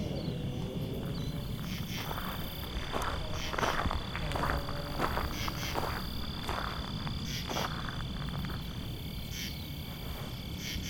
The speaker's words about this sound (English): Very interesting insects. Actually don't know what this is. Not a grasshopper,